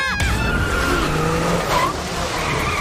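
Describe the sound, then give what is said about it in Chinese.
A race car's tyres squeal and skid at the edge of grip during a hard chase in a race, a loud continuous screech over engine roar that carries through the whole stretch. “新航选手的赛车出现了异况。看来在激烈追赶之下，他的轮胎已逼近极限。”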